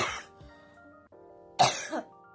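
A person with a tickle in the throat clears it a few times in rough, raspy bursts, with the louder, harsher clears coming near the end.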